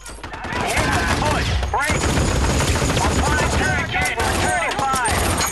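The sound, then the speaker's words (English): Rapid gunfire rattles through a combat scene with Marines, dense overlapping shots and bursts that continue almost without pause. Shouting voices are mixed in beneath the firing. “A Marine laughs as he shoots a gunman in the head.”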